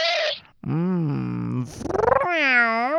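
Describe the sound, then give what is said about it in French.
A human voice imitates a kitten with four meow-like cries of wavering pitch. One has a rapid warble, and the final cry is high and drawn out. No other sounds accompany them. “Elle aime ça quand je fais le chaton.”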